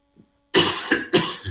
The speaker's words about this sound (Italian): Chiedo scusa dei miei colpi di tosse, ma sono ineliminabili.